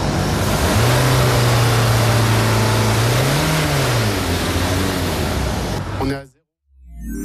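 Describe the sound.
Car engine revving during an exhaust smoke emissions test: a loud, steady roar with a low hum that swells upward in pitch once before settling back, then cuts off abruptly near the end.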